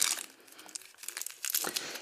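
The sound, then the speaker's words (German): Chocolate packaging of individually wrapped pieces is opened, giving many crisp, crackling crinkles and rustles in irregular bursts, louder at the start and again near the end. “Sollen wir das jetzt einfach schon mal probieren? Ja, ja wir machen das. Okay, also wir öffnen, okay. wir öffnen die Packung.”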